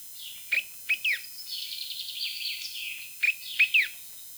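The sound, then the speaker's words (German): Birds twitter near a stream: a few bright, high chirps, then a quick warbling run of tweets, and another small cluster of sharp chirps. The sound is fairly soft and heard alone, without voices. “Die Zikaden zirpen. Die Vögel zwitschern.”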